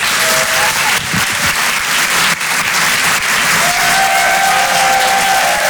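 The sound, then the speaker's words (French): Applause from an audience at a comedy and song show, a dense, steady roar of clapping hands that stays loud and even from start to finish. “Je vous demande de faire un maximum de bruit, s'il vous plaît, pour Richard Sabac.”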